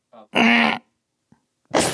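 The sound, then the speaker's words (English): A human voice imitates the troubled groan of a man disturbed by his dreams: one short, growly, throaty moan about half a second long, preceded by a faint brief murmur, with another voiced sound starting at the very end. “You want to do a quick groan for us?”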